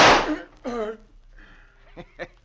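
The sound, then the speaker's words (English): A single gunshot in a western radio drama, a loud sharp burst right at the start that quickly decays, followed by a man talking. “Shucks, now, ain't that a shame, Gus? Shooting down a fine big hombre like him? Come on, let's get out of here till this shooting blows over.”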